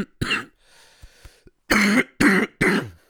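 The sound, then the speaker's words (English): Coughing and throat clearing from a person with a cold: one short harsh burst, a few faint catches, then three loud rasping coughs in quick succession. “You guys are going to hear this cough on here this week.”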